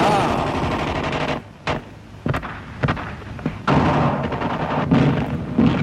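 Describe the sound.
German gunfire from 1944: sustained bursts of rapid machine-gun fire break into a lull of several single sharp cracks, then heavy continuous firing resumes and stays loud to the end.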